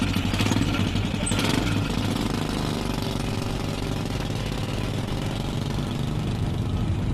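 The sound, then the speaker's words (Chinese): The engine of a three-wheeled motorcycle carries a family to their cotton field at harvest time. It is a loud, steady, rapid chugging and rattling throb that holds a constant pace for the whole clip, with no voices. “一家人一大早就坐着三轮摩托下地”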